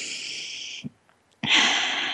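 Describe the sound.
A deep breath taken together with listeners: two long, hissy rushes of breath, steady and fairly loud, separated by a brief near-silent pause.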